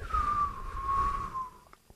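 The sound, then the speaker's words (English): A long whistled note holds a steady mid pitch, drifting slightly downward for about a second and a half, then gives way to a couple of faint brief clicks. “I need to wait for that whistling.”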